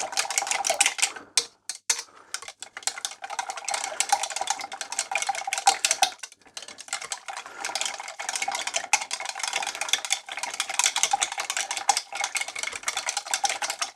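About 500 millilitres of marinade stirred with a kitchen utensil used in place of a whisk: a continuous rapid clicking and scraping rattle, fairly loud, running almost throughout with a few brief pauses and no voices.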